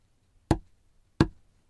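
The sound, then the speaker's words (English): Two sharp, evenly spaced knocks tap out a spondee rhythm of two long beats. Each strike is loud and clean with a short decay, standing alone against near silence. “However, the hexameter also uses another metrical form called a spondee, comprised of 2 long syllables, which sounds like this.”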